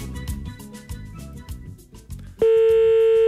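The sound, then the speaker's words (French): A steady telephone dial tone cuts in abruptly partway through, loud and unbroken to the end, as a call is placed to a listener's home landline. Other tonal sound comes before it. “Et tout de suite, j'appelle chez vous, à la maison”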